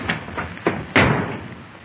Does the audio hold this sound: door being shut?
yes